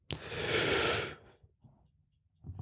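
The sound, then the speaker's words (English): A deep breath taken during a relaxation pause: one long, airy, fairly loud inhalation lasting about a second, followed by faint soft breathing sounds. “take a deep breath”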